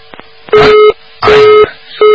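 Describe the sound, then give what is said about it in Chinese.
Telephone busy signal on a call that fails to get through: three short, evenly spaced, loud steady beeps on one pitch, with the last one cut off. “这个电话也没打到底”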